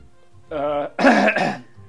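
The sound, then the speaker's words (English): A person clears a phlegmy throat. A short voiced hum comes first, then a rough, gurgling rasp, all within about a second. “Sorry, I'm sort of gurgling on my own phlegm.”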